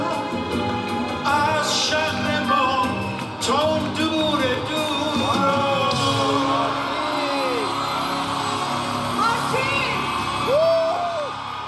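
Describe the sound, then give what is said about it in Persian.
An audience at a live concert cheers, whoops and yells in a loud, continuous crowd roar, with scattered shouted voices rising above it throughout. “گروه موسیقی توقف کرد تا مردم تشویقشون تموم بشه”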